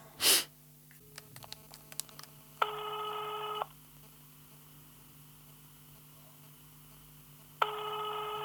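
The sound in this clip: A phone call being placed: a short breathy burst, then faint key clicks, followed by two long, steady ringback tones separated by several seconds of near-silence.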